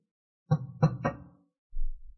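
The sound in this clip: Three knocks on a door come in quick succession, soft and hollow with a low thud to each, then silence.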